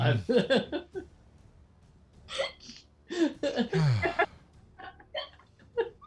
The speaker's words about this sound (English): Did you give her the hiccups? She's convulsed.